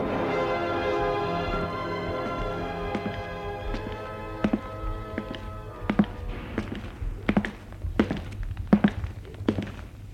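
A doorbell rings at someone's home, a sustained ringing tone that slowly fades and then gives way to a series of sharp, irregular taps.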